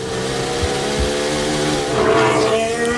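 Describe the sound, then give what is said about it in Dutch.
Formula 1 car engine heard onboard during a qualifying run in Azerbaijan: a loud, sustained, dense harmonic whine that holds steady throughout, with its pitch shifting around the midpoint. “Dit onboordgeluid komt vandaan bij Lando Norris.”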